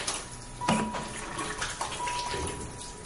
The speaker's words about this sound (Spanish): Va a la cocina. Se lava las manos.